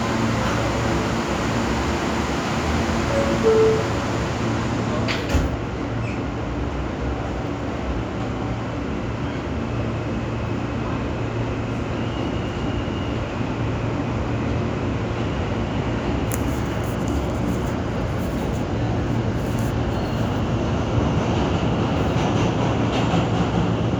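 A New York subway local train running toward 23rd Street: a steady, loud rumble and hum of the moving car that continues throughout, with a few brief metallic squeaks on top.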